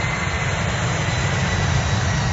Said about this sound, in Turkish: Uçak bize doğru geliyor. Bu pilot delirmiş mi be?